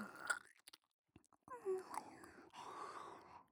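Wet chewing and slurping mouth sounds made by a person imitating eating come in soft, irregular bursts, broken by a short pause and mixed with breathy, whisper-like noises.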